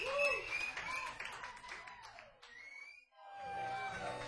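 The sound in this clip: Audience applause for a live musician as he returns from a short break: a dense, continuous clatter of clapping with some voices mixed in. It thins briefly around the third second, then swells again.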